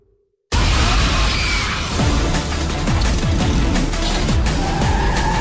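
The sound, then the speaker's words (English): A car is driven erratically. After a moment of silence, a loud, continuous roar of engine and road noise sets in, with tire squeals and skidding throughout. “Sorry about the driving. I'm getting lessons for Christmas.”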